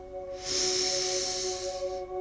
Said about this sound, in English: Deep breath in through the nose and hold. Breathe out.